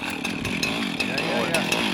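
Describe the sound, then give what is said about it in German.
A chainsaw engine runs with a loud, buzzing harmonic whine, revving up and down so its pitch swings and wavers throughout. “geht jetzt an die Kettensäge ran”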